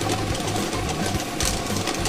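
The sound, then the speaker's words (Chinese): A lottery drawing machine spins 30 numbered balls, giving a steady mechanical whirring and rattling with a rhythmic low pulsing throughout. “摇奖机已经正式启动了。通过镜头我们可以看到，30个号码球在摇奖机当中正在快速的旋转着”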